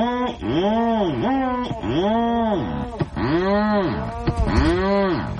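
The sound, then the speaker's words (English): Rhinoceros auklet, a seabird, calling from deep in its nest burrow: a steady series of low, moaning, cow-like calls, each bending up then down in pitch, with buzzy, rasping edges and occasional clicks between them. “No, that's the call of the rhinoceros auklet, a seabird deep in its nest burrow.”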